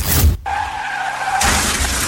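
A taxi crash sound effect: a loud rush of noise gives way to a sustained, whining tyre skid, then a sudden bright burst of shattering glass, loud and alone without speech.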